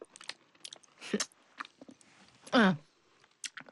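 Chewing and crunching on jujube dates: many short, crisp, irregular bites and mouth clicks, with a brief voiced murmur partway through and a few more chews after it.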